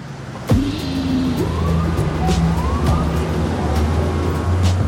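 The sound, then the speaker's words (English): Noisy city traffic at Columbus Circle in New York City: a steady, loud roar of vehicles with a siren-like tone rising and wavering over it. “Sarandos and Hastings stand in the center of New York City's noisy Columbus Circle, looking up at the massive, brand-new 55-story Time Warner Center”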